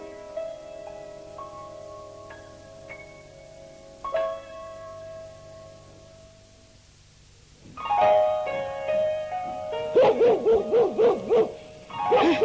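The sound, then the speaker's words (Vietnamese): A dog barks in a quick run of short, loud, strained yelps near the end, after a quieter stretch of sustained tones. “Đừng có sủa nữa. Sủa hoài ta sốt ruột quá rồi đó.”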